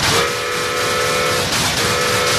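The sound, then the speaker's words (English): A model toy train, running on its diesel, zooms forward with a loud, continuous rushing rumble and steady whistle-like tones held throughout, with no voices. “He pushes a power lever. The toy train zooms forward.”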